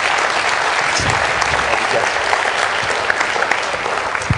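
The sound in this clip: A church audience applauds to welcome a guest speaker, a dense, steady wash of clapping that holds at an even level for the whole stretch.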